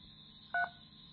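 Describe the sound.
A single short telephone keypad tone, pressed to pick an option in an automated phone menu: one clear, brief beep over a faint, steady background hum.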